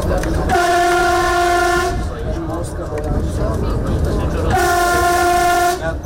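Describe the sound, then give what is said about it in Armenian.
An Armenian train sounds two long, steady horn blasts, with a low rumbling of the moving train filling the gap between them. “Ինչպես հետ դեպի ապագա Back to the Future արկածային ֆիլմում, հայկական գնացքներն այսօր ապագա էին տանում։ Գնում ենք ակադեմիական քաղաք։”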